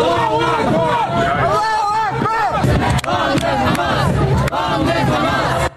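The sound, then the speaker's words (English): Pro-Palestinian protesters erupt at a Manhattan vigil marking three years since the October 7th attacks in Israel, a loud, dense crowd of shouting and chanting voices that carries on without a break. “That was the scene in Manhattan Wednesday night as a pro-Palestinian protesters erupted here. And they also interrupted a vigil that was meant to be marking 3 years since the October 7th attacks in Israel.”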